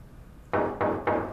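Knocking on a door: three firm, evenly spaced knocks, fairly loud and hollow, with nothing else heard.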